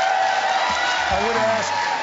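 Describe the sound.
An audience applauds during a televised Senate debate on Cuba policy. Steady clapping hiss fills the background while a man keeps talking over it.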